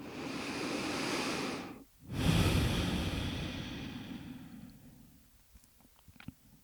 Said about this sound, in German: nimm 3 tiefe Atemzüge hier in den Herzraum.